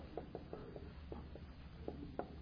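Handwriting in capital letters, pen strokes scratching in a few short, faint bursts with uneven gaps between them.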